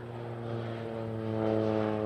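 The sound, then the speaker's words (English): Propeller aircraft used for aerial top dressing, dropping superphosphate fertiliser over steep hill sheep country. Its steady droning engine hum carries strong harmonic tones and swells slightly louder toward the end. No voices. “a few daredevil pilots experimented dropping superphosphate out of aircraft, inventing what is now called aerial top dressing.”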